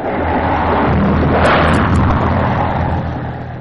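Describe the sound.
A thunder sound effect in a stage performance of Oedipus at Colonus: one long, loud, broad rumbling roar that swells in the middle and then slowly fades.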